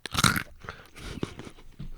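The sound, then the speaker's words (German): Crunchy bite into a candied roasted almond: one sharp, loud crack, then a few softer crunches of chewing that fade out. “So, gebrannte Mandel, 1, 2, 3 mit Knack.”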